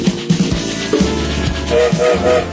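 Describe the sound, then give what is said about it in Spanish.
A train-departure sound effect: rhythmic clattering over a steady low rumble, with a few brief tonal hoots near the end. “Se largó el tren”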